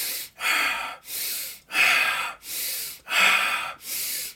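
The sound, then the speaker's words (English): Deep, forceful breathing during a rapid hyperventilation-style breathing exercise, seven loud strokes of air in and out in an even, rhythmic cycle, with no talking. “So big, deep breaths, right?”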